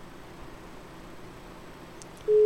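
A telephone tone sounds after a dropped call on a call-in line. Faint hiss is followed by a sudden, loud, steady pure tone that starts abruptly near the end.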